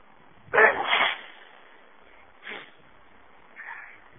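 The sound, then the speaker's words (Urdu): A loud human sneeze bursts out once, followed by two much fainter short breathy noises. “الحمدللہ یہدیکم اللہ وسلم جب چھینک آئے تو الحمدللہ کہنا یہ سنت ہے”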